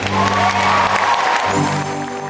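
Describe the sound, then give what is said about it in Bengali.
An audience applauds at a live concert as a singer is welcomed, a steady clapping wash under sustained music, continuous from start to finish. “Please welcome, সবাই মিলে জোরে হাত তালি দিয়ে”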